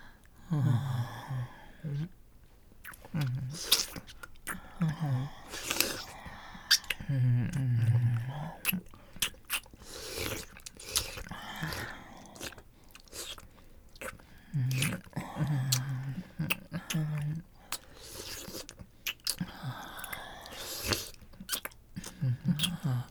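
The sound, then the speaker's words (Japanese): Soft, wet chewing and mouth sounds come in irregular bursts, quiet and close, with faint breathy whispering between them. “美味しそう。いただきます。”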